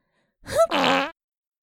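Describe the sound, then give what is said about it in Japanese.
A fart, one short burst running straight into a longer, buzzy, rasping blast, loud and clear against silence, lasting well under a second. “ああ、また臭い屁をこいてしまいました。”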